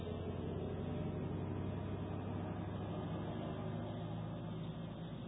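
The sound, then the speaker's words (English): A truck driving past gives a steady, dense, low rumbling roar that holds at an even loudness for the whole stretch, with no talk over it. “for that truck to go by”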